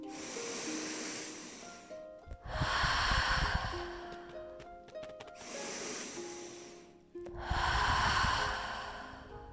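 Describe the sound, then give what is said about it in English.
Deep, slow breathing, in through the nose and out through the mouth: two full cycles, each a softer airy inhale followed by a louder, rushing exhale, over faint sustained musical tones. “Exhaling through the mouth, take 3 deep breaths. Inhale through the nose. Exhale through the mouth.”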